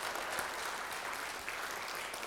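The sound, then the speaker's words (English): A church audience claps after an Easter sermon, a steady, dense wash of many hands that holds at an even, moderate level throughout. “Okay, that's the where we clap, and that's where we say hallelujah.”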